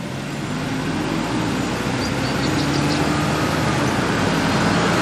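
A car engine runs as the driver sets off, a steady low rumble with a faint hum that stays even and creeps slightly louder over the few seconds, with no talking over it.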